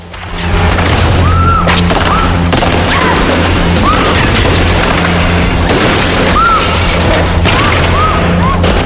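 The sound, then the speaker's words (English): Gunfire from a film fight scene in a shirt factory, heard as repeated booming, crashing bursts within a loud, dense, continuous din. “Eve screams as Chev and the big guy shoot.”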